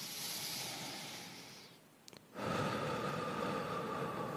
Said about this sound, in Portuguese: Você tem que respirar fundo, assim, ó.